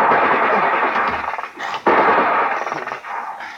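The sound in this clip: .50 caliber machine-gun fire during a battle, loud dense rapid bursts that roar almost continuously, with a couple of brief dips between volleys.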